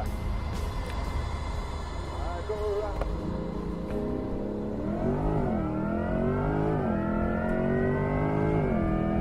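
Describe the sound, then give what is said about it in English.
Synthetic acceleration sound of a GM hybrid Corvette E-Ray, a layered harmonic tone that wavers, then climbs steadily in pitch and grows slightly louder over a broad engine-like noise bed. “electric motors should make no sounds, but apparently GM thought, no, we should definitely make it sound fucking stupid on acceleration.”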